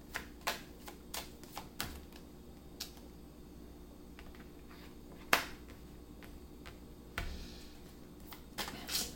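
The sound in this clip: Tarot cards being shuffled and drawn: a few sharp, dry card snaps and clicks scattered over a quiet background, with no voices.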